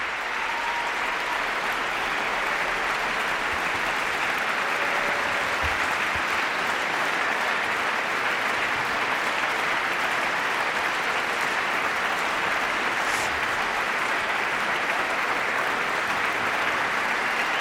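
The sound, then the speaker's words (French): Sustained, enthusiastic applause from a concert audience in the Salle des Combins at the Verbier Festival, cheering the Brad Mehldau trio after their set: dense, steady clapping at even loudness for the whole stretch, with no pauses. “Et comme vous pouvez l'entendre, le public de la salle des combats à Verbier est plus qu'enthousiaste après avoir suivi ce trio pendant plus d'une heure.”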